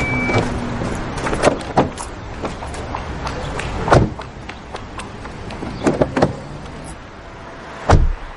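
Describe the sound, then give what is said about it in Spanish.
Footsteps, then someone getting into the passenger seat of a car: many light steps and clicks sound over a low background, and a heavier, louder thump comes near the end. “Fabiana abandona el edificio y camina hacia su coche mientras Irene corre tras ella y se monta en el asiento del copiloto del vehículo.”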